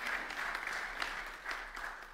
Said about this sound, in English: Can we just give her a round of applause?